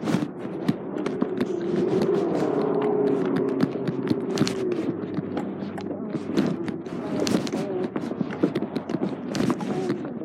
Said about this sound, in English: Why are you marching?